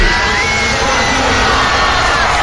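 Cheering from a crowd of about 50,000 at a stadium concert in Barcelona by a Puerto Rican singer: a loud, dense, unbroken roar that stays steady from start to end.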